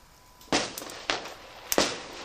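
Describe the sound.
A firework rocket going off: three sharp, loud cracking bursts, each followed by a brief fading hiss, spaced roughly half a second apart with quiet between them.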